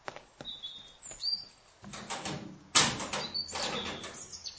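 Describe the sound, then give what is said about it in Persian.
A door is opened by a guard at an entrance leading into a garden. It makes rustling, scraping noise with a sharp, louder burst partway through, while birds chirp now and then throughout. “سرباز درو باز کن.”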